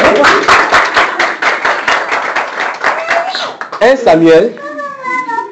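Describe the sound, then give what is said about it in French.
Congregation applause at a church service: many quick, rhythmic claps ring out for about three seconds, then a raised voice takes over as the clapping fades. “Applaudissons pour la soeur.”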